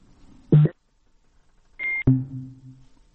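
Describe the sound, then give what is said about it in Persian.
Electronic beeps sound on a telephone line after a dropped call: a short tone, a pause, then a brighter tone that ends in a click and gives way to a lower sustained buzz. “تماس آقای ارسلانی فکر کنم قطع شد، همکار فنی هم کوشش میکنه که باز هم ایشان را در برنامه با خود داشته باشیم.”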